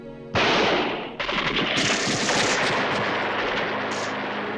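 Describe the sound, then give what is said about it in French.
Machine gun bursts in a firefight against pirates: a sudden loud, rapid rattle of shots that runs continuously to the end, with more overlapping gunfire joining after the first second. “Plusieurs rafales partirent, fauchant les pirates survivants, qui s'effondrèrent au sol.”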